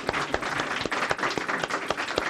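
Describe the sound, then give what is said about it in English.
Audience applause after a speaker at a community gathering: dense, continuous clapping with several sharper individual claps standing out. “Please, a round of applause for Dr. Terry.”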